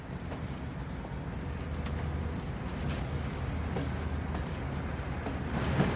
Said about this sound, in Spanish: El tren se pone en marcha.